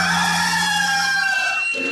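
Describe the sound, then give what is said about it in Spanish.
A rooster crows in one long, loud, strained call that holds steady and then drops off at the end. “¡Este es el gallo!”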